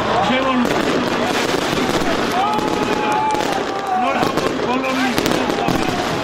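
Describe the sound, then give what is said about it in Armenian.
Fireworks explode at a New Year tree-lighting celebration in a town square in Vanadzor. Many sharp bangs and crackles run continuously, mixed with crowd voices and cheering throughout. “Վանաձորում 3 վարվեցին տոնածառի լույսերը, հրավառություն եղավ։”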